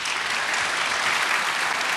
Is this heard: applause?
yes